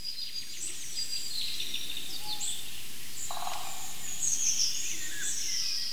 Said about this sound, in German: Er hält den Schnabel, weil der Pirol so wunderbar heute aussingt, muss man schon sagen.